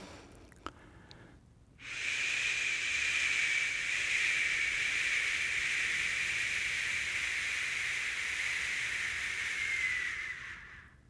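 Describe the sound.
A voice sustains a long, steady 'sh' hiss for the Hebrew letter Shin, holding one even breathy tone for about eight seconds before fading out.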